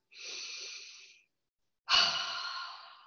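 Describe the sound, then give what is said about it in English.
A deep cleansing breath is drawn in through the nostrils and let out through the mouth. A soft, steady inhale is followed by a short pause and then a louder, longer exhale. “it's a deep breath in through the nostrils and out, exhale out through the mouth”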